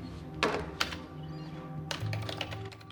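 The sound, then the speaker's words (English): Typing on a computer keyboard: two isolated taps followed by a quicker run of clicking keystrokes over a low, steady background hum. “Mohinder types Maya's details into a computer, then puts on his coat.”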